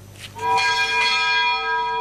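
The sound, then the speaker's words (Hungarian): A large bell tolls at the Military History Museum in memory of the Don Bend victims, ringing with resonant strikes and long sustained metallic overtones that hold steady to the end. “A Doni katasztrófa áldozataiért szólt a harang a Hadtörténeti Múzeumban.”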